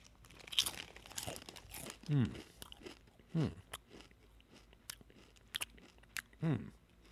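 Crunching and chewing of a cheese-flavoured snack: a few loud, crisp crunching bursts with softer chewing and crinkly mouth noises between them.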